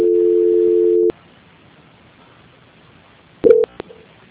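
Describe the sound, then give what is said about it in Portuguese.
Call transfer tones on a bank's phone line: a loud, steady single-pitch tone for about a second, a stretch of near silence, then a quick cluster of short beeps. “Só mais um momento em linha, por gentileza. Transferência.”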